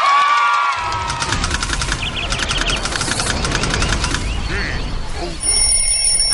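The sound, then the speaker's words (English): An alarm clock ringing: a rapid, continuous metallic bell clatter that holds for several seconds over a busy, steady background. “That's my alarm clock. Oh, 我的闹钟响了。”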